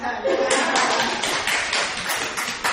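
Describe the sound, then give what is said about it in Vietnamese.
An audience at a Buddhist lecture applauds, a dense burst of many hands clapping that stays loud and fairly even for a few seconds, with voices mixed in. “Vỗ tay.”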